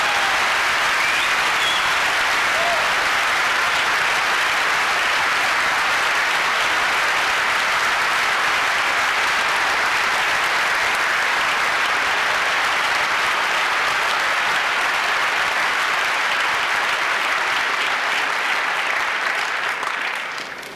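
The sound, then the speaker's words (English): Conference audience applause after a talk: loud, dense clapping that holds steady for about twenty seconds, then tapers off at the very end. “thank you. Give a round of applause.”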